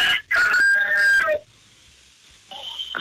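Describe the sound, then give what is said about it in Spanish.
A rooster crows once: a loud, harmonic call that lasts about a second near the start. It is followed by quiet background noise and a faint sound near the end. “Hasta el gallo se emocionó de que te marcamos”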